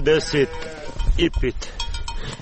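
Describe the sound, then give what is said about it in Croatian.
Sheep bleating from a flock kept at a house, let out onto snow-covered meadows. Several wavering, nasal bleats come in two quick pairs over a low rumble. “Izlazi iz kuće, kaže, ovce ne čekaju, pušta ih na snijeg koji je ovih dana pokrio livade”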